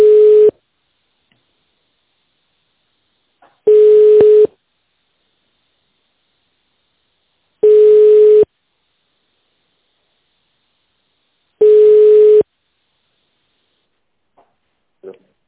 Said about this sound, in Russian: Оставайтесь на линии. Вам ответит первый свободный сотрудник.